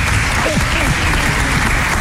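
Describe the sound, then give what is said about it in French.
Audience applause at a live event as a guest arrives: a steady, dense wash of clapping that fills the whole clip, with a voice faintly over it. “On va applaudir.”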